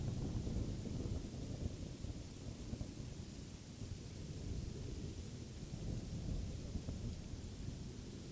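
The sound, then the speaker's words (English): Wind and rain storm noise, a steady, dense rushing roar with a low rumble beneath, continuous and even throughout with no distinct separate events or voices. “The winds and rain have no impact on you.”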